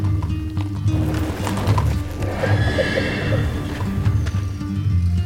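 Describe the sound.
Galloping hoofbeats of a mule circling around, a steady rapid clip-clop running throughout with loud whinnying rising above it.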